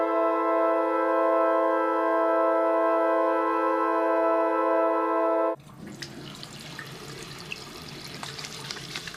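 Running tap water, the cold tap on a hot day, pours as a steady hissing rush. Before it, a strong, even electronic drone holds for several seconds and then stops abruptly.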